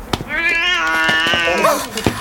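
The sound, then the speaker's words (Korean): A cat meows as it passes by in a quiet, deserted street area: one long, loud, wavering meow with a clear tonal cry, and a few sharp clicks around it. “깜짝이야. 야, 고양이. 너 우리한테 오는 줄 알았더니 그냥 지나가냐?”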